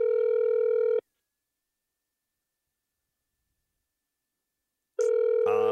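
Ringback tone of an outgoing phone call: a steady buzzing burr, a long silent gap, then the burr again, ending with a short noisy burst.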